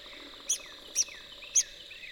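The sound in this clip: A red-cockaded woodpecker calls at its nest hole in a mature longleaf pine stand. Four short, high, sharp chirps come at fairly even intervals over a faint background hiss.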